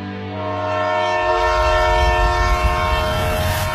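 A passenger train travelling from Beijing sounds a long, steady horn while the low rumble of its running wheels builds up beneath it and continues to the end.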